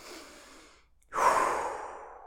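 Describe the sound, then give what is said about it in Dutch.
A person breathing during a pause in speech: a soft, airy breath fades to a brief silence, then a louder, fuller sigh-like breath follows and slowly trails off. “Wacht. Wacht. Soms is het even dat moment. Wacht. Even een momentje ademen. Even wachten.”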